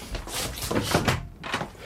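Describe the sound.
A hotel room door is opened after a knock, giving a few faint, short scraping and clattering sounds of the latch and door moving.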